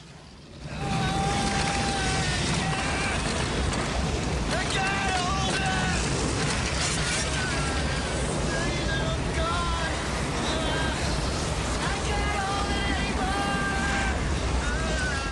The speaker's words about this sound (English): He strains as the door is sucked up by the wind.